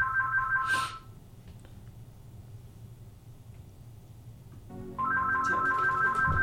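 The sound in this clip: A telephone rings with an incoming call, a faint electronic trilling ring. It sounds for about a second, falls silent for several seconds, then resumes steadily.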